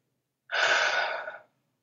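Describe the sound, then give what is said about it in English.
A single deep breath drawn in during a guided calming exercise: one smooth, airy inhalation lasting about a second, heard alone against silence. “Take a nice deep breath.”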